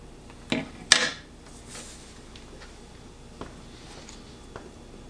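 A spoon digging into a tub of peanut butter chip ice cream: two sharp clattering knocks near the start, followed by a few faint scrapes and light taps.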